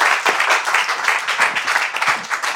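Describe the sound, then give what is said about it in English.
Audience applause welcoming a guest with music, film and TV publishing experience: continuous, even clapping from many hands, fairly loud and sustained throughout. “So why don't we give them a warm welcome for being here with us.”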